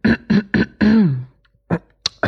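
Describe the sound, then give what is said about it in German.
Someone clears their throat: three short rasping voiced bursts, a longer one that slides down in pitch, then after a brief pause two more quick throaty sounds. “So räuspern, ne?”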